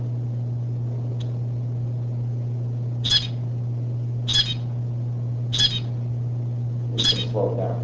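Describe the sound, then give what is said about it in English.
A recording of zebra finch song: four short, high, buzzy calls spaced roughly a second apart, with a fainter earlier chirp, over a constant low hum. “So this is what you would hear from these. These zebrafinch make hideous sounds.”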